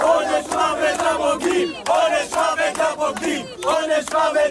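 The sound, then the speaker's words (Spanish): Crowd of harassers chanting death threats outside a family home: many voices shout in unison, repeating short rhythmic phrases in loud bursts with brief gaps between them. “Un grupo de acosadores rodeaba anoche el domicilio familiar de la codirectora de Nazca, de Raquel Shor, y coreaba, como escuchábamos, pena de muerte a los traidores.”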